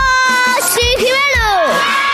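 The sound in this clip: Children shout and cheer excitedly as they arrive. Loud, high-pitched, overlapping young voices call out in bursts, with rising and falling yells.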